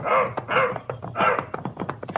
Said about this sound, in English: turned the dog loose. He circled around for a moment, got his bearings, and then, despite the soreness of his body, started into a limping run.